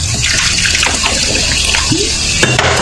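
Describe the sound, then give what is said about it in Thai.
Soda water pours into a drink glass in a loud, steady, splashing stream with fizzy bubbling that runs continuously for about three seconds, with no talk over it. “หนึ่งแก้วครับเติมโซดานะฮะ”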